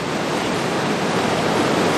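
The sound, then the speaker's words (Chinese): Tidal bore waves of the Qiantang River crashing against Zhanao Tower make a loud, continuous roar of rushing water, dense and unbroken throughout. “近距离感受大潮与湛鳌塔同框的震撼。潮水撞现湛鳌塔，”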